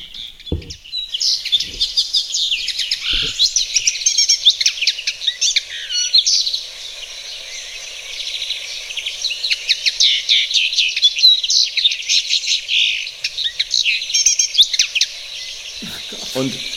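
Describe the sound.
A slender, goldfinch-like finch sings rapid, high twittering phrases full of chirps and trills. Two long bouts of song are separated by a short lull, with a few faint low knocks in the background.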